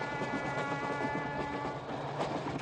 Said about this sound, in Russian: По длинному мосту поезд подъезжает к городу на берегу широкой реки.